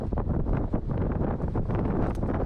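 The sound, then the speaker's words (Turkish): Strong typhoon wind on Taiwan's northeast coast roars continuously and buffets the microphone in a dense, loud, unbroken rush with constant gusting fluctuation. “tayfun şiddetli rüzgar ve sağanak yağışı beraberinde”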